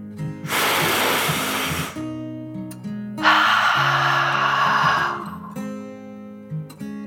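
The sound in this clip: A slow, deep breath drawn in and then let out, performed as a sleepy dragon's calming breath in a children's bedtime meditation: two long, soft airy swells of about a second and a half each, over quiet sustained music.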